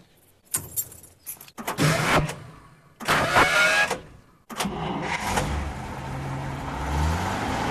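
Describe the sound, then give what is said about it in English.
A manual car lurching and stalling on a deserted road: a few abrupt bursts of engine noise and mechanical rattle, broken by short silent gaps, ending in a longer, steadier rumble. “Release gas, clutch, shift gear, get gas, shift. The car lurches and stalls again.”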